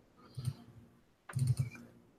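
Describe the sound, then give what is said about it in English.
A computer mouse clicks on an on-screen image: soft, dry clicks, one brief click and then, after a pause, a quicker cluster of clicks, all quiet. “See if I can click on this and get a bigger image.”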